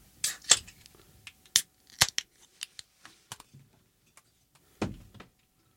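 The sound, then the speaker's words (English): Tabs cracking open on one-pint cans of Iron Maiden Trooper Premium British Beer, a string of sharp clicks and crackles followed by a single heavier burst near the end. “a four-pack of Iron Maiden Trooper Premium British Beer. Hello. One-pint cans. What do you say we crack these babies open and see what they taste like, all right?”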